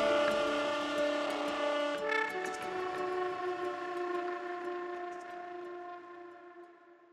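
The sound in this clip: A train horn at a railway station sounds a sustained multi-tone chord over a low rumble, holding steady before gradually fading out over about seven seconds.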